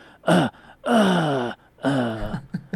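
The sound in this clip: A voice imitates a young child's dramatic, milked-out coughing: three long, voiced, groaning bursts with wavering pitch, then a couple of short clipped ones at the end.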